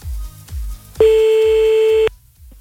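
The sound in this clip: A telephone line tone sounds while someone is being called back: one steady, loud electronic tone holds for about a second after a few low, dull thumps, then cuts off abruptly.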